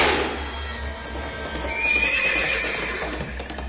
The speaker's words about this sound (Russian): Конь, как огонь, взвился под ним